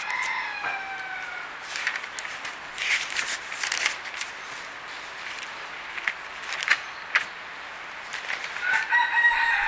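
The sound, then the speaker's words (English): Real roosters crow in a backyard, their strained, rising calls repeating several times at moderate level over a steady background hiss, with no speech. “For those who may be hearing this tape later and hearing the roosters in the background, they are real roosters. Nobody is over here falling on the ground speaking in a tongue. We have roosters in the backyard.”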